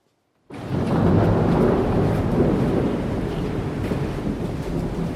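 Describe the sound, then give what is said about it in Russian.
Strong wind roars as a storm gathers, bursting in abruptly after a brief silence. A loud, steady rushing blast with low rumbling follows and holds to the end. “Дует сильный ветер. Собирается буря.”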